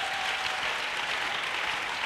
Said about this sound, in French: Nijipigie makofi. Acclame.